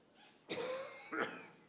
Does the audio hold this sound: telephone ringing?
no

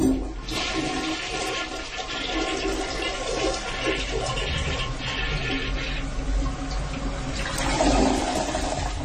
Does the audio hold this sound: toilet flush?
yes

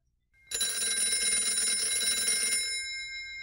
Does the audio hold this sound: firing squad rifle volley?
no

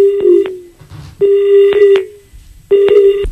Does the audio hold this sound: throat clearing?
no

